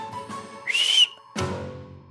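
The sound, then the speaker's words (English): A dog-training whistle gives one steady, high, shrill note lasting about a third of a second. It is followed after a short pause by a burst of broad rustling noise. “A run whistle, just a... Just keep him coming all the time.”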